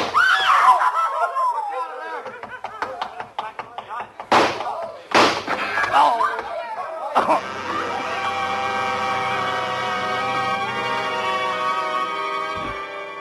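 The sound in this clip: Two sharp gunshots crack out during a tense police confrontation with an armed man. The loud, abrupt bangs come close together amid shouted voices and screaming.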